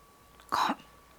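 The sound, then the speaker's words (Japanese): A single short throat-clearing, voiced for a talking postbox character, comes as one brief, fairly loud rasp with no talk around it. “さてと、ポストは咳払いを一つして言いました。”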